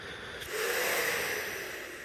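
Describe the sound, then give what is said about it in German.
A deep breath drawn in: a soft airy rush that swells about half a second in, then holds steady and eases slightly toward the end, heard alone. “Halte inne, steh auf, geh in die frische Luft und atme einfach mal tief ein.”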